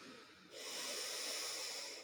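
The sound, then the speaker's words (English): One slow, deep breath drawn in through the nose during a grounding breathing exercise: a soft, steady, airy hiss that starts abruptly and holds for about a second and a half, faint and without talk. “So breathing in through the nose”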